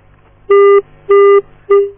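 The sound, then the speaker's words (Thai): Three evenly spaced, loud electronic beeps, each about a quarter-second long at the same pitch, sound as an international phone call from the United States drops and the line disconnects. “ครับสายหลุดไปนะฮะนี่สายจากประเทศสหรัฐอเมริกานะครับ”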